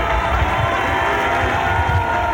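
Loud, sustained applause from the stands in a hall during a ceremony, a dense, steady wash of clapping with crowd noise mixed in, unbroken throughout.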